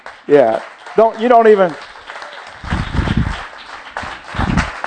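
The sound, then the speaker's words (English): Church audience clapping at a Palm Sunday service: a speaking voice comes first, then two short bursts of scattered applause follow, separated by a brief lull. “some of you are clapping and you have no idea why.”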